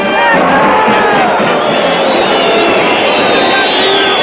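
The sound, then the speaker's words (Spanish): A packed football stadium crowd roars and cheers in a loud, unbroken wall of many voices with shouts rising through the mass of sound. “El estadio está a reventar y el público reventando.”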